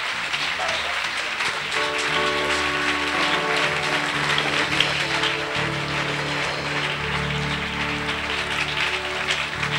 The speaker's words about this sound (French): On acclame Jésus encore plus fort.